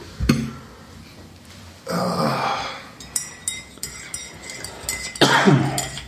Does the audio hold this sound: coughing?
yes

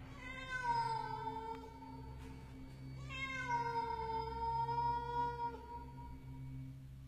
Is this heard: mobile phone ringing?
no

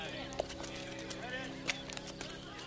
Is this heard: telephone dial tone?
no

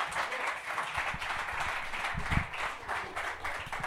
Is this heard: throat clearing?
no

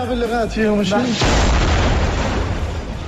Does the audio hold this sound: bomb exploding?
yes

